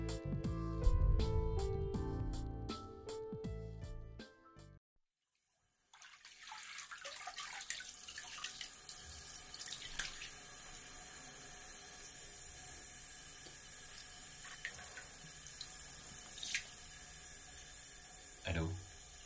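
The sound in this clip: Water running into a bathtub, a steady full hiss and rush that starts after a brief stretch of other sound and carries on evenly to the end.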